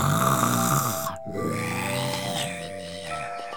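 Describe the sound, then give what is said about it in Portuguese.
Loud, drawn-out snoring of a sleeping lion: two long rasping breaths split by a brief gap, over a steady tonal background. “E ele dormia. E dormia. E roncava.”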